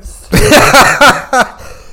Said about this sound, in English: Oh, God. That's a chesty cough. Got to get off the shisha.